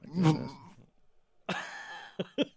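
A person clearing their throat: a rough, gravelly burst first, then after a pause a longer raspy stretch ending in two short, sharp bursts.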